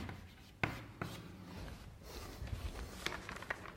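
Scratchy handwriting strokes while working through a maths derivation, a steady dry rubbing broken by a few sharp taps of the writing tip, with no voices.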